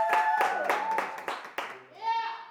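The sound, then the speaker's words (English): An audience in a room makes noise, with several sharp claps mixed with raised, cheering voices, fairly quiet and over in a couple of seconds. “So let's just make some noise really quickly all around the room for raw news.”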